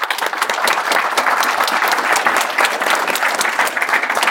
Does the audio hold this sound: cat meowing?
no